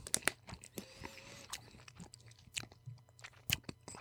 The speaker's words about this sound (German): jetzt machen wir sogar schon Essgeräusche.